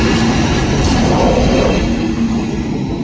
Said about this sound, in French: vous voyez justement maintenant un long train de marchandises avec des voitures qui arrivent.